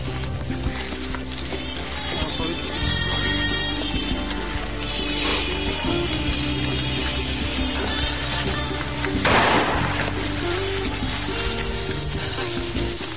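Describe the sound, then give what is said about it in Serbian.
Sand trickles through an hourglass as a steady, grainy hiss that runs continuously, layered over sustained musical tones with a brief brighter surge near the end. “peščanik. I sad kao to teče pesak.”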